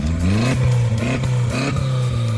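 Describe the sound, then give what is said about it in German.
Loud engine revving from an Audi A3 race car at a stubble field race, a steady growl that rises and falls in pitch several times without a break. “dieses Geräusch, das gehört zu dem Audi A3”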